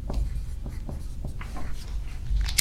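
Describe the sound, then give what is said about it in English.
Handwriting as something is noted down: several quick, scratchy strokes in an uneven rhythm over a low steady background, with no talk. “I'm going to write that down.”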